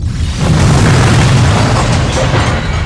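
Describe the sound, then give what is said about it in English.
A spaceship's self-destruct explosion booms as a deep, loud, sustained roar lasting about three seconds, with no separate blasts standing out. “Self-destruct module activated.”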